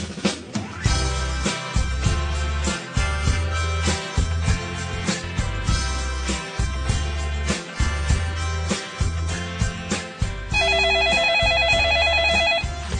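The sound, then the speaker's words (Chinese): A telephone rings with a rapid, warbling electronic trill, heard for a couple of seconds at the end of a call to a restaurant. Rhythmic music with a pulsing low beat plays before the ring. “咁样真系要打个电话去波希米亚讲俾佢听先，要。”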